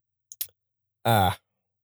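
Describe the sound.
Computer mouse clicking on a link: two quick, light clicks close together, then a brief pause and a short vocal sound.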